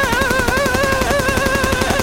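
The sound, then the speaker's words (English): Machine gun fire in one sustained, rapid burst, a dense and steady rattle at constant loudness, with a wavering tone running above it the whole time. “Well, what the fuck were you shooting at? Just wanted to make sure he was dead, man. Now, remember, you need express written permission to use this machine gun.”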